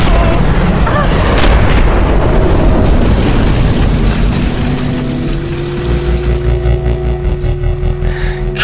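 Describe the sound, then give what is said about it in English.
A craft comes down and crashes in a sci-fi sound effect set on a planet's surface. A loud, continuous roaring rumble lasts about five seconds, then eases into a quieter, steady droning hum with sustained tones. “Something's coming down. It's going to crash.”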